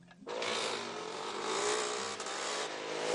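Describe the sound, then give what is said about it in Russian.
Two motorcycles ride past on a road between hedges, producing a continuous engine roar that rises quickly and holds steady for about three seconds. “По дороге между изгородями проезжают два мотоциклиста.”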